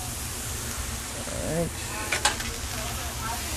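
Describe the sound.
Onions frying at a deli, a steady, loud hissing sizzle with a voice speaking briefly over it and a few sharp clatters near the end.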